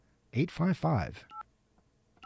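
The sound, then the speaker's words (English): Telephone keypad tones are heard as a number is dialed on an office phone system that needs 9 for an outside line. A voice talks first, then a few short, spaced beeps follow. “Do we have a dial tone? Okay. We have to dial 9 to get out. All right. And then we dial”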